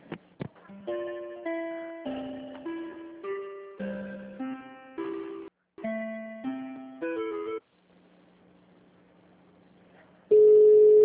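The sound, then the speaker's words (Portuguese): Telephone line tones play while a call is being transferred: a run of short electronic notes in a stepping, melodic pattern. A low steady hum follows, then a sustained tone rises at the end. “Tá chamando, não é?”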